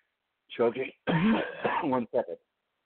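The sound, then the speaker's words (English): Coughing and throat clearing from a person choking on air: a few harsh, throaty bursts in quick succession, loud and close, with short gaps between them. “choking. One second. Okay. Yeah. Don't need to choke on the air”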